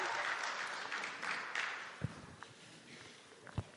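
Audience applause, faint and steady, a soft wash of clapping that thins out, with a couple of brief low thuds near the end.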